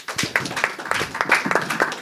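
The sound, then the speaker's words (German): Applause from an audience at a German-language event as a participant is welcomed to the front: many crisp, scattered hand claps at a moderate, uneven pace, with no voices over them. “Gibt es auch noch eine da? Ja, bitte, dann kommen Sie doch gerne noch zu uns. Auch für Sie natürlich mit Applaus.”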